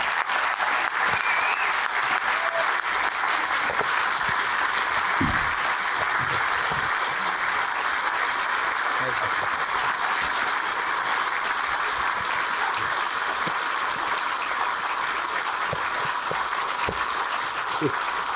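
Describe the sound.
Applause from a church audience welcoming a guest speaker: dense, steady clapping that keeps going without a break for the whole stretch.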